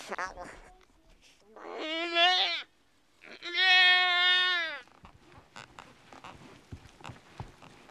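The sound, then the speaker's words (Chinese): A newborn lamb bleats in the harsh Yangtze headwaters region, giving two long, wavering, high-pitched cries separated by a short pause, followed by quieter scattered sounds. “看他的眼睛好像睁开了，睁开了，小羊的眼睛睁开了。江源的环境太险恶了，小羊也面对着生命的挑战。”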